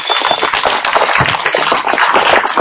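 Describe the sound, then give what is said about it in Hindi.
Audience applause welcoming a speaker: a dense, steady patter of many hands clapping at an even loudness throughout. “जोश और तालियों से भाई जी का”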